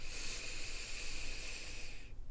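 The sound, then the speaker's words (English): A deep breath drawn in, a soft, steady airy hiss lasting about two seconds before it stops abruptly, quiet and alone with no talk. “Together, let's take a deep breath in.”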